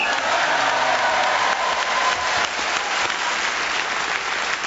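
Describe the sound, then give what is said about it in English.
An audience applauds after a contestant's turn in a game, giving a loud, continuous sweep of clapping that dips slightly near the middle and carries on to the end. “the audience really enjoyed it. A round of applause showed it.”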